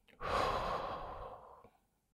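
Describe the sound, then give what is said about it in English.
One slow, deep breath heard as a long, soft, airy exhale that fades out gently, alone with no talk. “Take another breath in and another breath out.”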